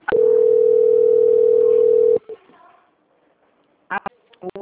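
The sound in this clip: After a dropped call, a telephone dial tone sounds as one loud, steady, unbroken tone for about two seconds, then cuts off into near quiet before brief bursts of talk.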